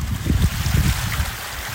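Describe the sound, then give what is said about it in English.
Floodwater gushing down a bank behind a house, after pouring through and tearing up a concrete driveway. A loud, continuous, rumbling rush holds steady throughout, with no voices. “The water came pouring down the bank behind her property, also tearing up her neighbour's concrete driveway. Today it was still gushing.”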